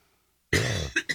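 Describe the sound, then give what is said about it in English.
Coughing from a person with a froggy throat in the morning: one harsh, hacking cough followed by two short, sharp coughs, loud and alone with no talk. “I don't know what is up with me coughing this morning. I apologize. A little froggy throat.”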